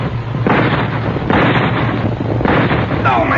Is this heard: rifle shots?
yes